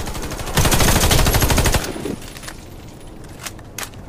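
Gunfire in the video game Warface: a dense burst of rapid automatic fire lasting over a second, then a few isolated single shots with quieter game noise between them.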